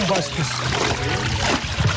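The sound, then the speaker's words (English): Liquid sloshes and pours as tannery workers soak goat, sheep, alligator and snake leather in a mixture of ash, salt and dung: a steady, dense wet churning that runs without pause. “Sounds of workers soaking the leather in a liquid mixture of ash, sodium chloride, and dung fill the neighborhood.”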